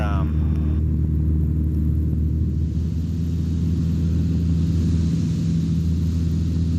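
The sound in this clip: A light aircraft's engine at full throttle on its takeoff run from runway 28 makes a loud, constant low drone that holds an even level and pitch throughout.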